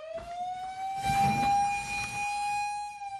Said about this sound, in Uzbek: Sirena chalishi bilan o't o'chiruvchilarda tayyorgarlik uchun 3 daqiqa bor.